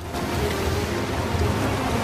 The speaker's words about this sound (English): As she makes her way across the rock, a wave washes over her, and she has to cling on for dear life.